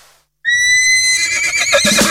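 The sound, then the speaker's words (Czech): A horse gives one loud, high whinny that starts abruptly after a moment of silence and wavers for under two seconds. “Máte rádi koně?”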